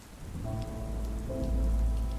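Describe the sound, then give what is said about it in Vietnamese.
Steady rain falls in a continuous, even patter. It sounds soft and unbroken throughout, with no voices. “trong tiếng mưa rơi rã rích, vang vọng khắp không gian tối tăm”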